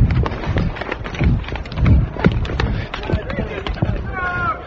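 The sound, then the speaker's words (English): Many rapid footfalls from a crowd of demonstrators running, with police chasing close behind. Shouting voices and general commotion sit over the uneven, hurried stepping. “We're running. Crowd people are running. Demonstrators. Police hard behind us.”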